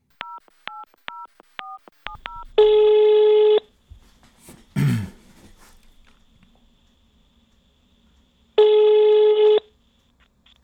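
Telephone dialing and ringing: a quick run of short dialing beeps, then a long ringing tone, a brief clunk, a pause, and a second identical ringing tone.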